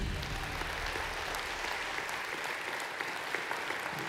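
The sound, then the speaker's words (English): Audience applause welcoming a speaker onto the stage at an event in Oklahoma, a steady, dense patter of many hands clapping that continues evenly for about four seconds with no voices over it. “Would you put your hands together and welcome David Ring to the stage?”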